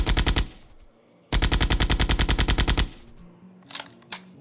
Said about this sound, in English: Fire up the 50 cal.